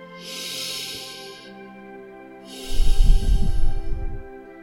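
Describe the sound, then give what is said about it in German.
Deep, slow breathing into the belly during a guided relaxation. Two long, airy breaths are heard over a soft sustained tone, and the second, louder breath carries a rough, breathy low rumble. “ganz langsam, und atme langsam wieder aus. Nimm noch einige Atemzüge, ganz tief.”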